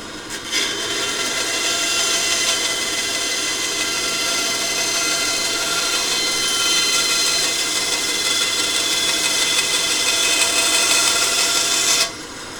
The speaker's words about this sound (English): So we're going to crank up the bandsaw here and give it a zing.